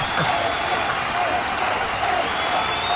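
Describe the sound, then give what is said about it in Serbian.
Audience applause, a dense and even wash of many hands clapping at a moderately loud level, continuing without a break for the whole clip. “Aplauz.”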